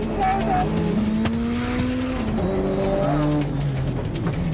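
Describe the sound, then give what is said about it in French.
A car drifting through controlled skids, with loud tires squealing continuously over a roaring engine whose pitch shifts up and down throughout. “Roule droit. Non, pas les dérapages contrôlés.”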